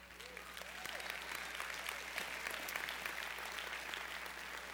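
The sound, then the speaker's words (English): Applause from an audience during a church sermon: a faint, steady wash of many hands clapping together, holding at a constant level throughout. “by the way, I like that you clap.”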